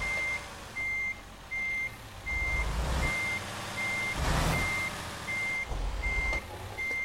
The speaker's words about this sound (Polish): No dobrze. Muszę się tak wycofać. Mam nadzieję, że to nic nie jedzie.